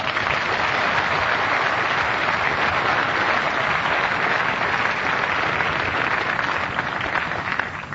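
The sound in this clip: A studio audience applauds to welcome the chairman of a panel game, a continuous wash of clapping that stays full and even for the whole stretch before tapering slightly at the very end.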